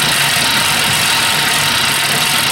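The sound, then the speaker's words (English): An old exercise bike whirrs noisily as it is pedalled, a loud, continuous mechanical drone with a steady rumble and no break or change over the whole stretch. “It's impossible. This bike is too noisy. I can't hear the TV.”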